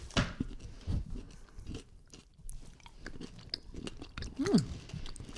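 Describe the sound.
Chewing a licorice-topped white chocolate candy with small crunchy pearls, heard as many irregular, moist crunches and bites, fairly quiet, with no talk.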